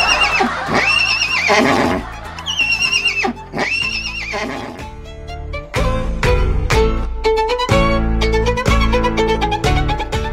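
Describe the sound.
A horse neighs loudly, giving two shrill whinnies with a wavering pitch in the first few seconds, followed by more dense, loud sound.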